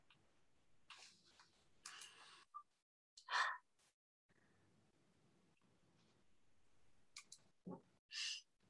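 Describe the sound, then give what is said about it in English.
Several deep breaths taken to get centered before a conversation: long, airy inhales and exhales, some drawn out like sighs, separated by quiet pauses, with no speech. “So we're going to take a few deep breaths on that.”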